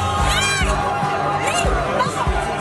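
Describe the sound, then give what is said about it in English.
A crowd in Gibraltar cheers as the border wall with Spain comes down, with loud shouts and excited voices rising over a busy babble of chatter. “cheering as the border wall with Spain comes down after years of negotiations.”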